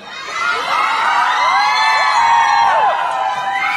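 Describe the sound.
A crowd screams and shouts at full throat, many voices overlapping in a dense, continuous roar with sharp high whoops, staying loud and steady throughout.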